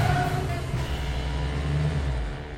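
Low engine hum of a car turning sharply into a driveway, a steady droning tone that holds and then slowly fades toward the end.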